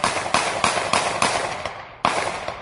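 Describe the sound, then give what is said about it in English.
Gunshots from a police officer's gun, heard in a police video recording. A quick string of sharp, loud cracks comes at an even pace, then a short pause and one more shot. No talk. “I want to hear that video. The sound from that video of the cop shooting.”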